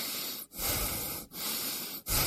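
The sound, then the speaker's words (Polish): A person breathing in, loud breathy hiss through the airway, drawn in a few long sustained breaths separated by brief pauses. “Proszę oddychać.”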